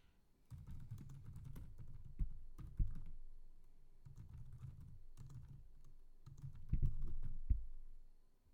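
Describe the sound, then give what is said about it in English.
Quiet clatter of fingers typing a name on a computer keyboard, in bursts of rapid keystrokes separated by short pauses, with a few sharper, louder clacks standing out. “I went to type the second girl's name in, Kiara Fighting Bear.”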